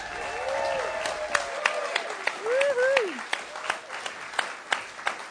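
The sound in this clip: Applause from an audience at the Arcata Playhouse greets a music trio, with many sharp claps ringing out while a person talks over the first part, then thinning into scattered, separate claps.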